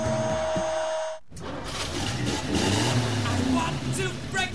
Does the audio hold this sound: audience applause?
no